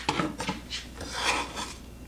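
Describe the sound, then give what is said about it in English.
A knife minces herbs such as basil, oregano, thyme or rosemary, making quick, rasping chopping strokes in an uneven rhythm that is fairly loud throughout. “So definitely, the example is mincing herbs.”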